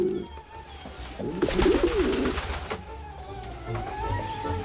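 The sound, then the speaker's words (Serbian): Pigeon cooing indoors after flying in through a window: low, throaty coos in a short run, heard over steady background noise. “Golub je ušao kroz prozor!”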